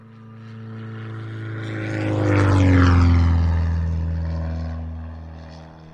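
A propeller airplane flies past, its droning engine hum swelling steadily to a loud peak midway and then fading away again, with no voices.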